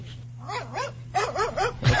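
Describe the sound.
A dog giving a quick series of short, yelping barks and yips, with a steady low hum underneath.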